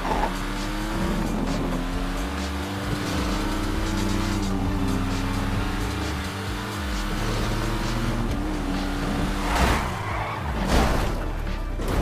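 A car spinning out in a video game: a continuous droning engine whose layered tones waver and shift in pitch for about twelve seconds, loud and steady, with no voices.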